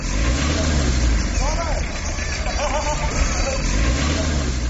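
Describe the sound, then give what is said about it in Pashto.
Steady mechanical hum and drone from an electric-powered swing ride machine at a Kabul amusement park, running continuously at an even level while voices talk over it. “دا ډولۍ د برېښنا په مټ ګرځي د قادر شاه خبرې به د ډولیو د ماشین تر غږ وروسته واورو”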